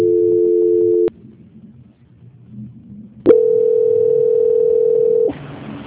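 A telephone transfer tone during a call being put through: a steady tone, then a pause ending in a click, then a second long steady tone that gives way to a brief hiss.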